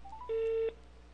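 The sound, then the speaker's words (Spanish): A single telephone keypad dialing tone, a steady electronic beep lasting under half a second, as a phone number is dialed for a third attempt at a call. No voices. “Volvámosle a marcar una tercera vez.”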